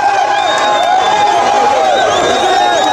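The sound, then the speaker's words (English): A crowd of supporters roars to welcome presidential candidate Moise Katumbi at a campaign stop in Goma, eastern DRC, a loud, continuous mass of many voices with no break. “Supporters are welcoming presidential candidate Moise Katumbi in eastern DRC's capital Goma this week, one of many recent campaign stops for Katumbi, who launched his presidential bid in late November.”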